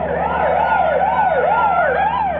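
Police car siren during a chase: a loud, continuous wail sweeping rapidly up and down in pitch in repeated cycles, over a steady low drone.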